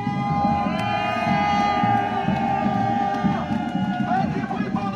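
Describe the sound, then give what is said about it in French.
Hundreds of marchers cheer in front of Paris city hall after walking to the capital, a sustained, loud roar of cheering and shouting voices that holds steady throughout. “c'était ce dimanche, des centaines de personnes rassemblées devant l'hôtel de ville de Paris après avoir marché du nord, de l'est, de l'ouest ou du sud jusqu'à la capitale.”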